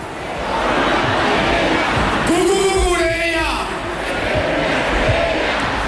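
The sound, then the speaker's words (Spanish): A crowd at a football title celebration chants for left-back Marc Cucurella: a loud, sustained roar with a rising sung chant in the middle, carried over continuous crowd noise and voices. “pidió ayuda al público para cantar su canción. ¡Cucurella!”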